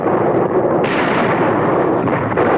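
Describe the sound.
Rapid machine-gun fire in a World War II battle scene, a dense, continuous roar of gunfire with no audible gaps, loud and steady throughout and with no talk.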